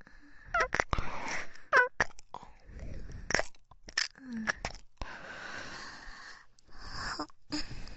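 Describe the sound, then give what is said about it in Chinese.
Mint-lemon flavoured hard candy is crunched and chewed up close, with many irregular crisp bites and soft, wet mouth noises scattered across a quiet background. “有没有尝到淡淡的薄荷柠檬味呢？又吃了一粒薄荷柠檬味的糖果，是不是很香？”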